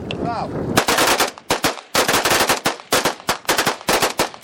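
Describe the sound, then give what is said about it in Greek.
Gunfire from about 15 guerrillas emptying their weapons in a salute to victims of fascism: loud, rapid, overlapping shots in dense bursts with brief gaps, many sharp cracks in a row. “Περίπου 15 αντάρτε αδειάζουν μπροστά μα τα όπλα του σε ένα χαιρετισμό για τα θύματα του φασισμού.”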